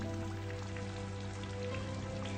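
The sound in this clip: Heavy rain shower pouring down as a groom leads his bride to the car at their wedding. A dense, steady hiss continues throughout, with no voices.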